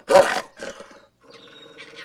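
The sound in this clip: A big dog growls with a harsh, roaring burst. The first burst is loud and the second is shorter and weaker. A quieter, steadier tonal stretch follows.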